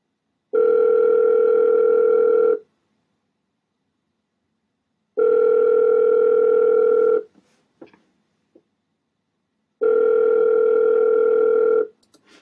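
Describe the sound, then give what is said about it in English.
Telephone tone heard while calling a friend: a steady, loud electronic tone in three even bursts of about two seconds each, separated by silence, with a few faint clicks after the second and third bursts. “Let me dial him up right now.”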